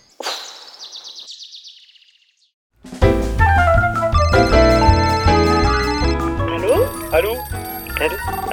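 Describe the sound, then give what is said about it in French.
A telephone rings with a rapid, high, warbling trill for about two seconds, then falls silent before loud music starts and continues to the end. “Allô. Le coup de fil à un ami. Allô.”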